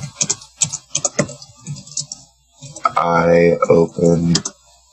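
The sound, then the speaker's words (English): Clicks of a computer keyboard as someone types in a search, a run of quick taps spread through the first half, followed by voices talking. “Probably all you have to do is type in Clockwork Orange.”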